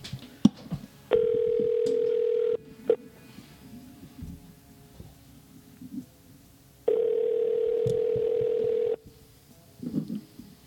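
Telephone line tones while dialing a call, heard as two long, loud, steady tones separated by a quiet pause with small clicks, and a few faint rustles at the end.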